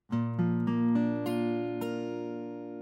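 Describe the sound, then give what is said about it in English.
A B-flat chord on guitar has its strings picked one after another in a quick series of bright plucks, then the full chord rings on and slowly fades. “A B-flat chord sounds just like this.”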